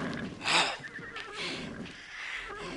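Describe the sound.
A horse neighs with a brief, loud, breathy whinny near the start, then quieter rustling and fluttering sounds over the remaining seconds.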